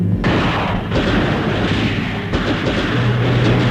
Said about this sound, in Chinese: 话音未落，游击队轻机枪的子弹雨点儿般泻向敌阵，队员们散步水中一起猛打，敌人浮在船上还击。